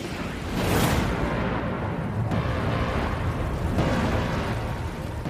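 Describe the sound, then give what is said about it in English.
A raging forest fire roars through tinder-dry Florida woods in a film scene, a dense, loud, continuous rumble that surges early, with two sharp cracks breaking through the steady roar. “Let's set the woods on fire.”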